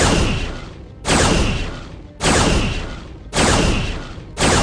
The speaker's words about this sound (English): Firing quantum torpedoes from all bays at full spread.